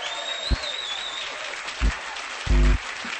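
Applause from an audience welcoming a performer to the stage, a steady wash of clapping at a moderate level with a few low thumps.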